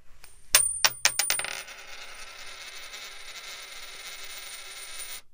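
A tossed coin lands with a few bright metallic clinks as it bounces, then rings and whirs steadily for several seconds while it spins down on its edge before falling silent. No voices are heard.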